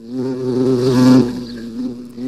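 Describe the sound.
A bee buzzing in one continuous stretch, a steady low droning hum with a rich, raspy tone that swells louder around the middle and then eases off slightly without stopping.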